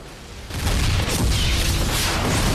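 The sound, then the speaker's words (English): Rockets strike a vehicle and it explodes: after a quieter opening, a sudden heavy boom swells into a loud, deep, sustained rumble that fills the rest of the stretch. “A guard on the wall fires rockets at the vehicle.”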